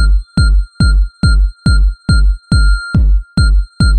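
A chime sound effect struck over and over in a quick, steady rhythm, each hit a bright ringing tone with a soft thump underneath, loud and alone.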